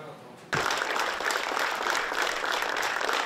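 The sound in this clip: An audience applauds after a documentary film screening at the Zhovten cinema in Kyiv. The clapping starts abruptly and continues as dense, even applause.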